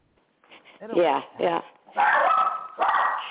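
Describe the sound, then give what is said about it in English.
A dog barks and yips in a few loud, short bursts with whimpering tones, separated by brief gaps. “Apologize for the dog.”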